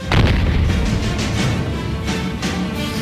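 A deep, loud cannon blast opens with a sharp onset, then gives way to a sustained, booming rumble that stays dense and heavy to the end, with no voices.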